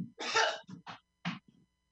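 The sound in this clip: A man clears his throat: one longer rasping burst followed by a few short, gruff catches, faint and alone with no other sound around it.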